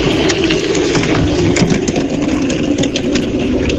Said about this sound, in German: das ist das Geräusch von einer Seifenkiste, die ins Ziel einfährt und bremst.